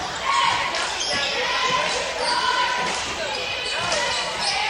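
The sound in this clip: Basketball dribbled on a court during a women's basketball game, with repeated rhythmic bounces under steady crowd noise.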